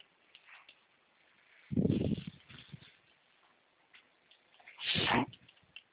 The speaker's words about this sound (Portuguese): Que barulho é esse? Oi? Um barulho estranho. Não, é que meu nariz está escorrendo mesmo.